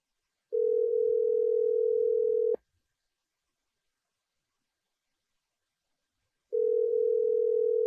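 Ringback tone of an outgoing phone call: two long, steady, mid-pitched beeps about two seconds each, separated by a silent gap of several seconds, the second cut off at the end, loud and alone without talk.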